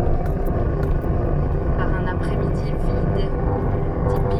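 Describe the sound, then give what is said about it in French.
A convoy of trucks and technical support vehicles rolls through during wildfire operations in the Diois: a continuous low engine rumble with a heavy, steady drone, while voices talk over it. “L'armada de camions et de véhicules de soutien technique qui déferle,”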